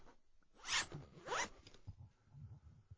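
A zipper on a coach folder is pulled in two quick rasping strokes, the first slightly longer than the second, followed by faint rustling and handling of the folder.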